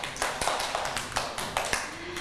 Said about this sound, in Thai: ปรบมือให้มากกี้หน่อยค่ะ